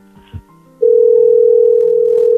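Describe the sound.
Telephone dial tone after a call is hung up: a few faint clicks, then a loud, steady, unwavering hum that sustains to the end.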